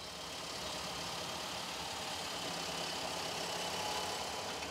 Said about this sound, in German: Ah, der Drescher läuft. Und drischt den Hanf.